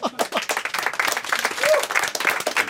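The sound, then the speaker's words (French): A studio audience at a Québec evening television talk show applauds after a punchline. The clapping is dense and loud with uneven surges, and faint voices mix in. “Les gens applaudissent nerveux. C'est un réflexe. C'est nerveux.”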